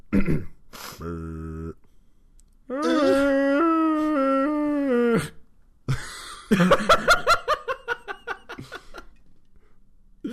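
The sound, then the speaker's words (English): A human voice imitates a ghostly moan. A shorter, lower groan comes first, then a long, sustained, wavering vocal tone lasting a few seconds, and a burst of rhythmic laughter follows. “That was more of a wail. Let me do a moan.”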